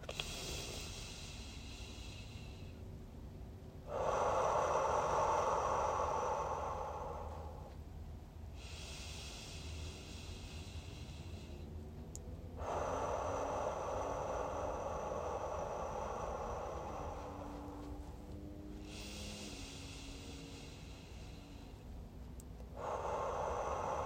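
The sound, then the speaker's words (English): Three deep breaths, each drawn in through the nose as a loud rushing inhale and let out through the mouth in a long, fading exhale. They come about eight seconds apart, and the last inhale falls at the very end. “And I want you to take 3 deep breaths, and I'm going to do them with you. In through the nose, out through the mouth.”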